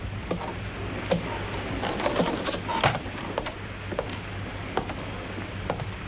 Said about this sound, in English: He knocks on a cabin door.